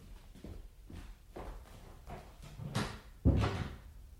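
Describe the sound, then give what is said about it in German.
A door is pushed shut with one heavy thump near the end, after a run of soft, evenly spaced thuds like footsteps. The whole passage is quiet. “Die Tür machen wir zu.”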